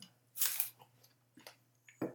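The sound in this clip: Biting and chewing a crisp Gala apple: one loud, sharp crunching bite, then several softer, wetter chewing crunches at uneven intervals, with a faint low hum underneath and no talking.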